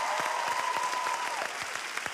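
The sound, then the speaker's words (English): An audience on stage claps and applauds at a live show. Crisp individual claps rise above a steady, fairly loud wash, which eases slightly in the second half. “Back on stage, the brothers clap. Big thanks to Niall Horan. Give it up for him one more time.”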